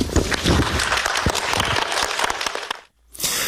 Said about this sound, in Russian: Давайте похлопаем вам.